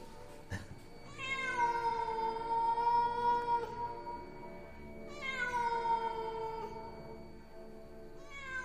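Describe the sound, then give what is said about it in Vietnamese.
A cat yowls eerily in two long, drawn-out, harmonic wails separated by a pause, with the start of a third wail at the end; no growl stands out clearly. “Con mèo gầm gừ một hồi, thỉnh thoảng lại kêu lên những tiếng nghe đến rùng rợn.”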